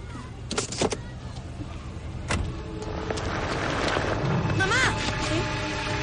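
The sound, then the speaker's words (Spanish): A car rolls downhill on an icy road after being put in neutral with the handbrake released. A steady low rumble builds through the scene, with a few clicks early on and a brief squealing whine near the end. “El coche se va cuesta abajo.”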